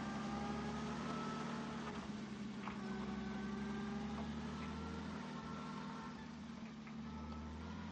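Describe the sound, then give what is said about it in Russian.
A truck's engine strains as it drives slowly over a broken, muddy road, giving a continuous loud low rumble with a pulsing throb and a faint whine above it, heard alone throughout. “Грузовик едет медленно, натужно.”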